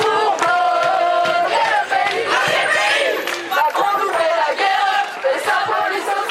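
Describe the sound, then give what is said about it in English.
A loud crowd of students protesting behind makeshift barricades in a standoff with police in Lille. The many voices shout and chant continuously, forming a dense, steady roar of raised voices throughout. “The sound of one protest in Lille. Their students gathered behind makeshift barricades in a standoff with police.”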